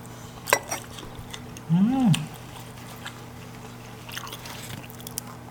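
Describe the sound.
Crunchy biting and chewing of crispy fried spring rolls: a couple of sharp, faint crackles early on, a short hummed voice sound, then soft, scattered chewing noises over low background hiss.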